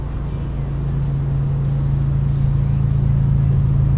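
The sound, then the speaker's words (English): A motorcycle coming up on the road gives a low, steady engine drone that grows slightly louder as it approaches, without any sharp revving. “Oh, we got a bike coming up here. Let's see if we can hear it.”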